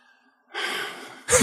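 A deep breath drawn by a man, heard as a long, steady breathy rush with a short, sharper and louder burst of breath at the end. No talk over it.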